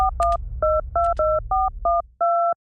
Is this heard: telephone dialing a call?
yes